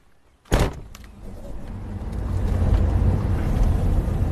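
A car getting ready to drive off from the West Care Center: a sharp thud, then a low engine rumble that steadily swells and grows louder until the end.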